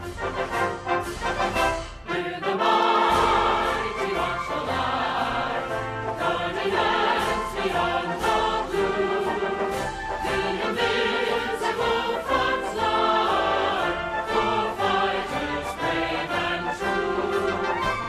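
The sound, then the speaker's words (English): A military band plays the official US Space Force theme song, a dense, loud and continuous full-band march that runs without pause and with no speaking voices. “do you want to hear the Space Force theme? Absolutely. Dude. It's so ridiculous. Straight out of the American song bag. It's called Semper Supra.”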